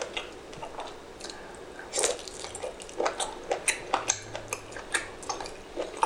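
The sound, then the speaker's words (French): Faint, wet mouth noises of someone eating big pieces of salmon and tuna dipped deep in a bowl of sauce. Many small smacks and squishes sit over a quiet hiss and come quicker and louder in the second half. “On vous parlait des bruits de bouche, là. Des bruits de sauce”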